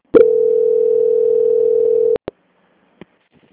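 A steady telephone tone sounds while a bank call is transferred to quality control. The single unbroken note holds for about two seconds, then a couple of short clicks follow, with no talk.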